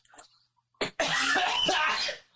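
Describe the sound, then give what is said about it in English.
A person coughing after choking on a drink: one sharp short cough, then a longer harsh, rasping burst of coughing that lasts over a second before it stops. “cough. I just choked on a little bit of drink.”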